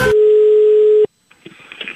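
A single steady telephone tone sounds as a call is placed, holding one even pitch for about a second before cutting off abruptly, followed by faint scattered clicks and rustling.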